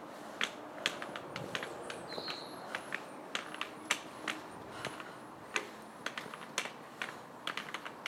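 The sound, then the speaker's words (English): Footsteps walk along a railway station platform as sharp, faint clicks at a steady pace, with a brief bird chirp partway through. “Just walking along the platform, I just come over the bridge again.”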